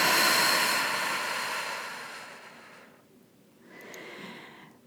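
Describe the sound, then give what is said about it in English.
A deep breath taken during a guided breathing exercise: a long, loud, airy rush of breath that slowly fades, then after a short pause a second, softer breath, steady and without talk. “let's take a deep breath together. So deep breath in. And exhale.”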